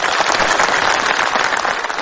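Dense, sustained applause from an audience, a continuous crackling wash of many hands clapping at an even, loud level throughout.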